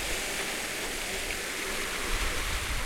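Water from a fountain splashes in a steady, dense rush of noise that stays even throughout, with no voices.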